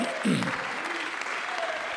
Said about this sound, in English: Let's clap our hands unto the Lord and bless His name.